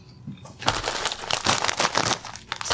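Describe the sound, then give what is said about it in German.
A bag of ridged potato chips crinkles in bursts of crackly rustling that rise and fall for a few seconds. “das sind auch Riffel-Chips. Das einzigste waren die ja auch Riffel-Chips. Ja, und ich finde es heute lecker. Für dieses Geräusch habt ihr eingeschaltet, liebe Leute.”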